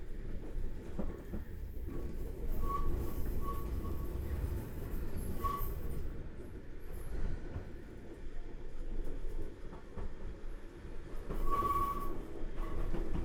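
An electric train departing a station in Japan: a continuous low rumble with rattling wheel noise and brief high squealing tones, steady and moderately loud throughout, with no talk.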